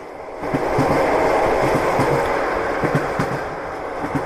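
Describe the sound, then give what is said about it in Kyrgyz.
A train travels along the rails across the Kazakh steppe, a steady broad roar carrying a faint, repeated rhythmic clatter of wheels. It is loud throughout and easing slightly toward the end, with no voices. “Поезд салып уруп кетип баратат.”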